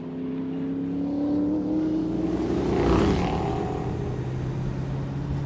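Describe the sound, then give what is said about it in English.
A muscle car drives a sharp turn on a mountain road. Its engine gives a steady mid-pitched drone that swells to a peak near the middle of the turn, then settles back to a constant hum. “Now the muscle car makes a sharp turn on a mountain road.”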